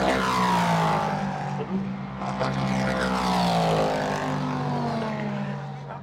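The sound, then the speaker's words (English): Le Mans prototype race cars at a noisy circuit, a loud, deep engine rumble with strong tonal whine that sweeps in pitch as cars pass, holding steady before fading slightly at the end. “The atmosphere is noisy. These new prototypes, they're very, very deep rumble noise.”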